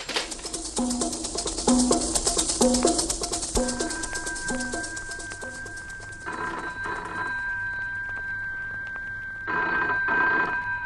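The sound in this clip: An old home telephone bell rings in repeated bright bursts for about four seconds in an Egyptian stage comedy, then gives way to a steady sustained tone with occasional noisy bursts.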